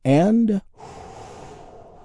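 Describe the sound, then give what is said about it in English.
A big, deep breath taken together by a group, drawn in and then released. A short voiced sound comes first, followed by a long, soft, breathy rush of air that slowly fades. “we do this by taking a big, deep, healing breath all together. Here we go.”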